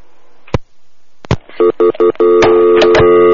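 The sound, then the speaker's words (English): A telephone call being hung up: a couple of sharp handset clicks, then loud short electronic beeps that run together into a continuing line tone. “You hung up the phone.”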